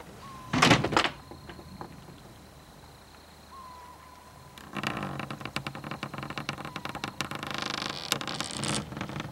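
A door is opened and closed, with a sharp thump near the start, then a quiet stretch, then a longer run of rattling, clattering handling noise.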